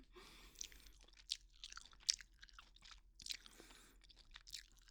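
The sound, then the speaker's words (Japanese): Slow chewing of peach-flavored gum right beside the ear: soft, wet smacks and small sticky crunches recur in an unhurried, uneven rhythm, all quiet and close, with no talking. “耳元でゆっくりゆっくりガムを噛まれてどうですか？気持ちよくなっちゃったりして。”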